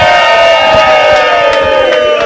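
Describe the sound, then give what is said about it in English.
Loud cheering from a live studio audience at a show, a sustained roar of shouting and whooping voices with scattered claps, staying intense throughout. “And this is a live studio audience.”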